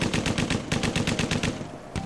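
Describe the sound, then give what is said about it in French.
Rapid automatic gunfire in a firefight, many sharp shots fired in quick succession, with a short lull near the end before a few more shots ring out. “c'est l'apocalypse. Ça tire dans tous les sens.”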